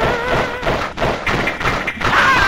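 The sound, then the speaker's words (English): Dull thuds from people being shot with a light gun in a 1986 video game, a dense run of repeated muffled impacts over a noisy, rumbling game soundtrack. “here's just some noise from the game of people being shot with 1986 technology”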